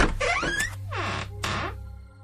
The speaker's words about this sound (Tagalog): Kaya hindi na ako nagdalawang isip na buksan ang pinto.